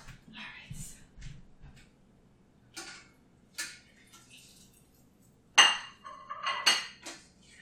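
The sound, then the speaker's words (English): Fried food being lifted out of hot oil onto a paper-towel-lined plate gives a few sparse, quiet clinks and taps of utensils against cookware, separated by near-silent gaps, with the sharpest knocks near the end. “Alright, so I'm going to get a paper towel to put on a plate to absorb the oil and grab those guys real quick out of the oil, because they're going to burn so fast.”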